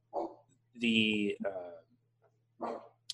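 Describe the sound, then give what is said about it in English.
A dog barks and yips in a few short, bright bursts with a whimpering tail, heard alongside speech. “That's an appearance by my dog.”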